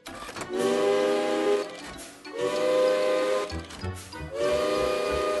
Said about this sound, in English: Outside the workshop, Ruth made an alarm clock using steam whistles from an old railway engine. When the alarm goes off, it sounds like this.